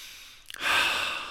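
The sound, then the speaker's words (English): A deep breath: a few faint clicks, then a soft airy rush that swells quickly and trails off slowly over about a second. “I'm just going to breathe into that.”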